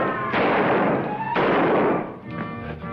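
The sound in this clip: Gunshots ring out, a few loud booming blasts, each leaving a long rumbling decay before the next, with no talk between them.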